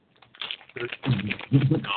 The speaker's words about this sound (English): Stop unwrapping things.